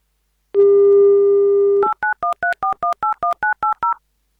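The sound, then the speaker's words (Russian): A telephone number beginning with prefix 913 is dialed: a steady dial tone sounds, then cuts to a rapid run of short, evenly spaced touch-tone beeps of shifting pitch pairs. “«1980» — последние 4 цифры номера, которые мы уже набрали. Префикс 913.”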